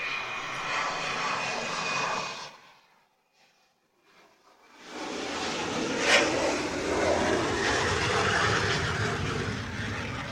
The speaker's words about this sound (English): for those wondering, that was a T-38